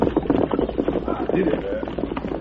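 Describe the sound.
Horse hooves clip-clop as a rider moves ahead on horseback, a steady run of quick, even beats that keep going throughout over a dense, busy background.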